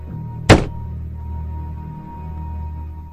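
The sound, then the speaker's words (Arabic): A single dull knock, given as a yes answer to a question, strikes once sharply over a steady low electrical hum and faint background noise. “لو سألتك سؤال واجابته اه هتخبط خبطة واحدة، ولو اجابته لا خبطتين.”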